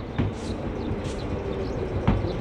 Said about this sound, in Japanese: 電車が来たよ。